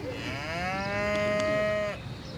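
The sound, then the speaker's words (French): A cow moos in a barn on a farm, giving one long, loud, steady tonal call that ends abruptly, with no voices present. “Pour commencer, je vais aller voir les vaches dans leur étable.”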